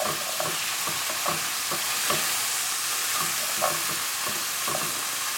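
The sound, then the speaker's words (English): Food browning in a frying pan gives a steady, dense sizzle throughout, broken by a few soft clicks and scrapes, with no voices. “So I don't want to move this around too much because the more you move it, the less it's going to brown. So I'm just going to let this sit and get gorgeous and golden brown”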